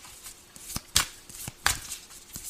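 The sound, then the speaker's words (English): Tarot cards being shuffled and drawn: a few crisp, papery snaps and riffles at irregular intervals, with quieter soft rustling between them. “All right, may I have two more cards, please?”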